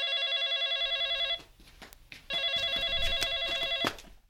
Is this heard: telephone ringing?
yes